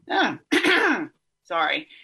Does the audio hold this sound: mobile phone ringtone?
no